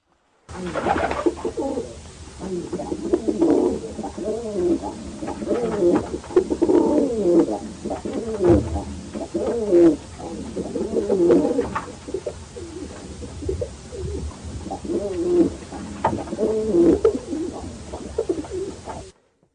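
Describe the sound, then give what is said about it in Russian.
City rock pigeons coo repeatedly throughout. Many low, throaty, rolling coos come in overlapping phrases at a fairly even level, with short gaps between bouts. “Голуби.”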